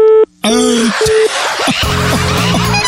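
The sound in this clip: Telephone keypad tones while dialing a call: a few short, steady beeps at the start, then a dense, noisy stretch with faint tonal traces running under it.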